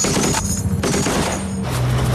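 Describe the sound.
Warning shots are fired from Marines' guns at an approaching truck: several loud, dense bursts of gunfire blur together into a continuous crackling roar with a few brief lulls, and no voices over it.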